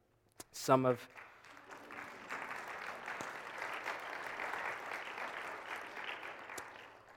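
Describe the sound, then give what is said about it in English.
Church audience clapping on Palm Sunday: after a brief voice at the start, a broad spread of applause rises and holds steady, then thins out near the end. “Thanks for clapping that I came to church.”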